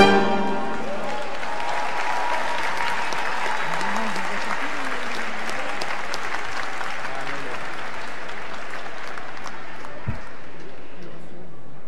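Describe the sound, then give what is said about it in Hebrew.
Audience applause for singer Yoram Gaon at a live Jewish unity concert: dense, sustained clapping that holds at an even, loud level for the full twelve seconds without a break. “כפיים ליורם גאון, חברים.”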